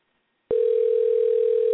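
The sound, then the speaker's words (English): A telephone dial tone sounds while someone is being called, a single steady, loud pitch that cuts in abruptly after a short silence and holds unbroken to the end. “That may have been us dialing you”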